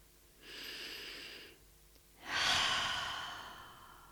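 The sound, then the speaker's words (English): Deep, slow breathing: two long, airy breaths with no talking, the second louder and longer than the first. “Put your hand on your heart and just take three deep breaths into your heart.”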